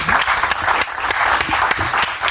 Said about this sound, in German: Applaus